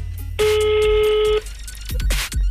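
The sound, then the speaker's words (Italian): A telephone ring tone sounds once as a call is placed: a single bright, steady electronic tone lasting about a second, loud and clear against a quieter background. “Chiamiamo Lucia Biolchini, che al telefono ci risponderà.”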